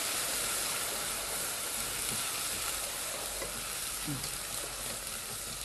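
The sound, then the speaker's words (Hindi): About two tablespoons of ginger-garlic paste stirred into onions frying in a pan: a constant, quiet sizzle and hiss with soft scraping strokes from the stirring. “और उसी के अंदर मैं अदरक लहसुन तकरीबन 2 table spoon अदरक लहसुन के मैं ऐड कर रहा हूँ और इसको हम करेंगे मिक्स अच्छे तरीके से।”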